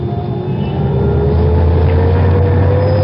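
A Rolls-Royce car drives off from the curb, its engine giving a loud, steady hum whose tone rises slowly as it pulls away.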